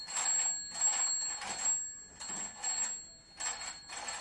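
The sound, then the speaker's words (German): A telephone rings with a bright, metallic bell tone in repeated short bursts, mostly in pairs, separated by brief silent gaps. “Dein Telefon klingelt. Los, geh mal ran. Dein Telefon klingelt.”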